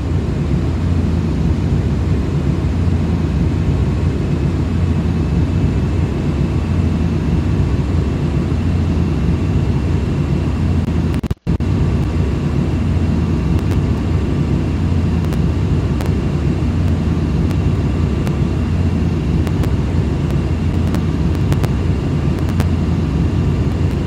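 Steady, loud roar of a Boeing airliner's engines during a climb in a flight simulator video game. The broad, even rumble holds throughout, with one very brief dropout near the middle.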